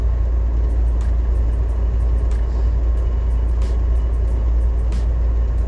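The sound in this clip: Car interior noise while driving: a steady, loud low rumble with a broad hiss of road and engine noise that holds evenly throughout, with no talking.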